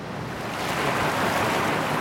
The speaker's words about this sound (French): La mer, encore la mer. J'ai l'impression que ça s'arrête pas. Sur le bateau, ça tangue, ça tape.